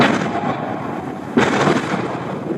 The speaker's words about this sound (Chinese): 灭雷具携带灭雷炸弹入水后抵近水雷位置，成功引爆水雷。